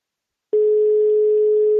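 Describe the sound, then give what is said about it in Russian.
Telephone ringing tone on a call just dialed: after about half a second of silence, one steady, even tone begins and holds unbroken to the end. “Гудки.”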